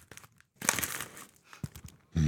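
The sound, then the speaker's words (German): A paper bag of fresh milky oolong tea from China crinkles and rustles in a few short, crisp bursts, faint at first and then louder, with no talk over it. “Ich habe ja mal eine Tüte mitgebracht. Ja. Ja. Ist noch ganz frisch. Milky Oolong aus China.”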